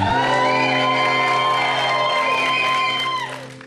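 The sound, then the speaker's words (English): Live festival audience at Assembly Festival in Coventry cheering, a loud sustained roar of whooping and shouting voices that holds steady before fading near the end. “And our wonderful live audience from Assembly Festival in Coventry.”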